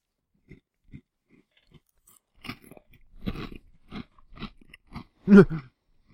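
Potato chips crunched while eating, many crisp, irregular bites and chews, mostly quiet with a loud crunch near the end, without talk.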